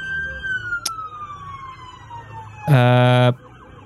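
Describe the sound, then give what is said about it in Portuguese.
Police car siren during a filmed chase of a stolen car: a long tone slowly sliding downward, then a short, loud, buzzy blast of the siren before it cuts off. “Perseguição policial, beleza. Ah, o carro foi furtado na Avenida Tomás Alves.”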